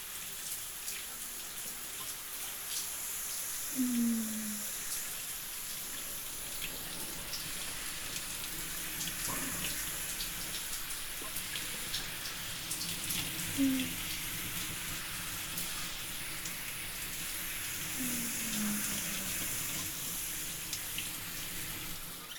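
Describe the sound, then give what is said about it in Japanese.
Shower water rinsing hair after a hot-spring-mineral hair treatment, a steady soft hiss of spray running without a break, fairly quiet and even. “それじゃあ最後にシャワーで流して、”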